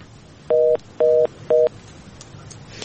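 Telephone line tones sound as a listener's phone call connects: three evenly spaced, steady dual-pitched beeps, each about a quarter second long, over a low hiss.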